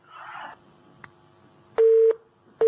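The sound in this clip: Telephone line tones as a caller is put through to a call-in program: a brief burst of noise and a click over a steady low hum, then two loud electronic beeps, the second cut off at the end.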